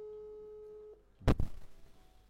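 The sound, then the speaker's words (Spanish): A telephone call ringing out: a steady, faint electronic tone holds for about a second and then cuts off, followed by a couple of low thumps. “Sí, le estoy llamando a Osvaldo Mora.”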